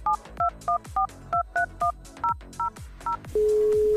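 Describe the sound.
A phone number being dialed from a radio studio: ten quick, evenly spaced keypad beeps at varying pitches, then a steady, low, continuous line tone that holds to the end.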